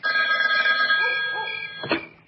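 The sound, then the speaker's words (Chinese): A telephone ringing: a bright, sustained electronic ring with several layered tones that holds for nearly two seconds, ends with a short, sharper burst, then falls silent. “李成一打来的电话又响”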